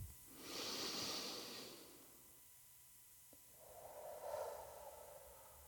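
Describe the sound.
Two quiet, airy breaths, the first longer and brighter and the second following after a pause, are taken during a guided meditation; faint and unaccompanied, with no talking.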